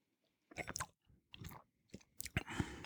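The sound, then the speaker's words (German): Sipping and slurping of an amber spirit with caramel, citrus and raisin notes at a bar trade show in Berlin: several short, quiet wet mouth sounds in uneven succession, with no talk. “Jetzt nehmen wir mal Schluck.”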